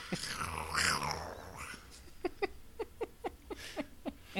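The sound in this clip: A cat vocalizes in a drawn-out, wavering cry, then makes a quick series of short, clipped calls. The sounds are fairly faint and no one talks over them.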